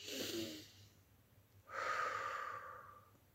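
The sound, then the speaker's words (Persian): A deep breath drawn in through the nose during a guided relaxation exercise: a long, airy hiss that swells and then tapers off, following a shorter breath at the start. “حالا چشماتو ببند و از راه بینی نفس عمیق بکش.”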